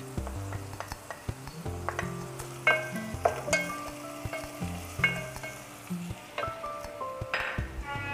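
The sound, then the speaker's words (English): Chopped green chilies sizzle as they fry with onions in a pan. A steady crackle runs throughout, broken by several sharp metallic clinks of a utensil against the pan. “To this, uh, onions we are going to add green chilies, chopped green chilies”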